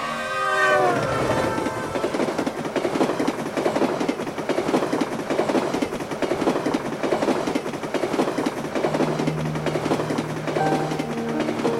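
A slow local passenger train, an accelerato, runs along the line. A short horn or whistle sounds at the start, then a steady, loud, rhythmic clickety-clack of wheels over the rails continues for the rest.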